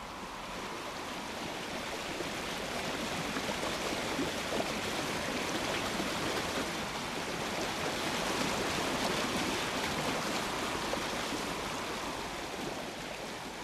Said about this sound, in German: fließendes Rauschen. Zuweilen unheimlich still, dann unvermittelt aufschäumend mit der gebrochenen Musik von Wasserfällen, Kaskaden.